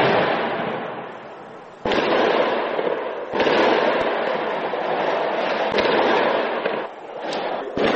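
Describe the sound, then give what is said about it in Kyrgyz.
Gunfire and explosions ring out during a pre-dawn police raid on terror suspects: several sharp bangs cut through a continuous loud roar of crackling noise, with the bursts spaced unevenly. “Рейдин жүрүшү ок атуулар жана жардуурлар менен коштолду.”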